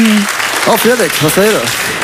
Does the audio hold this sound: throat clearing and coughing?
no